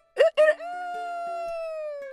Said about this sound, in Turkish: Horoz ötmüş